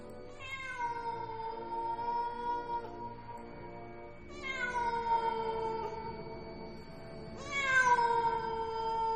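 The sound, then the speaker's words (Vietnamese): Stray cats yowling mournfully in a cemetery: three long, drawn-out wailing meows spaced a few seconds apart, the last one the loudest, with quiet between them. “Những con mèo hoang, nó bắt đầu đi lang thang trong nghĩa địa, kêu lên những tiếng thảm não, nghe đến giận cả người.”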